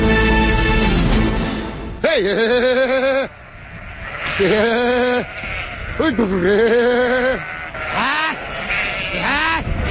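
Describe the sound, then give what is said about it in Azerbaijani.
Sheep bleat at a winter pasture on the Baku–Shamakhi road, from a flock of 700 head. About five loud, wavering bleats arch up and down in pitch over a steady background rumble. “Bakı Şamaxı yolundakı qışlaqların birindəyik. Həmsöhbətim Elxanın 700 baş qoyunu var.”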